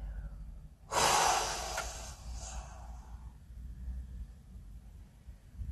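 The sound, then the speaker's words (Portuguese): After holding the breath during a breathing exercise, someone gives one forceful, airy exhale. It starts loud and fades over about two seconds into a faint hiss. “E sopra com bastante força.”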